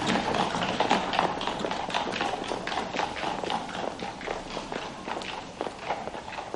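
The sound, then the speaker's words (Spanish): Footsteps of a man walking through a city, a steady run of many regular, crisp steps that keep an even pace from start to finish. “Camina por la ciudad.”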